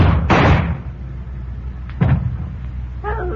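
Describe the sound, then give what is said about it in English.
Two gunshots ring out in a radio drama. Each is a sharp, heavy burst, the first slightly longer, with about a second and a half of quieter tail between them. “You hit him, all right. Two shots, right in the back of the head.”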